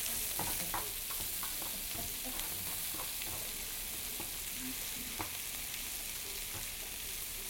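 Food frying in a pan gives a steady, quiet sizzle, broken by scattered light clicks and scrapes from stirring.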